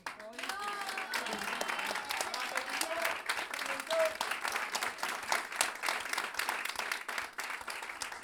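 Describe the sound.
Audience applause at a live improvised music show in a jazz school, with dense, continuous crowd clapping for about eight seconds. A voice rises over the clapping near the start.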